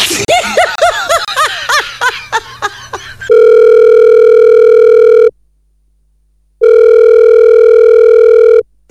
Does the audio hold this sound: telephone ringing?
yes